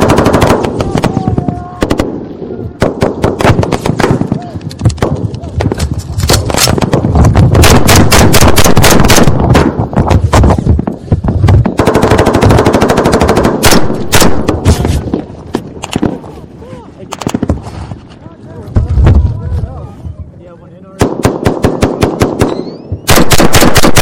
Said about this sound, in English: We got about 500 meters outside of the village and started taking uh, some pretty accurate fire.